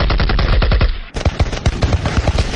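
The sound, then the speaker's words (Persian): Machine gun fire in a city street where tanks had arrived near a shrine: rapid, loud bursts of many rattling shots, with a short break before the firing resumes. “یه وقت دیدم صدای رگبار مسلسل بلند شد”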